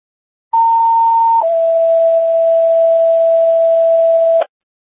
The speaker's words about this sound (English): go ahead with that tone check